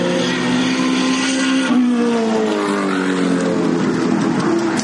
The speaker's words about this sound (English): That noise was actually three vehicles.